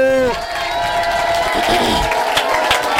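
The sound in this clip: An audience at a school event cheers and claps for a teacher, with loud shouts and whoops over a rough patter of clapping and voices throughout.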